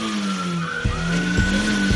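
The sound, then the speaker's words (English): A car engine revving while the car sits in drive. It holds a steady droning tone with a few brief, louder rough bursts. “You're just revving the engine.”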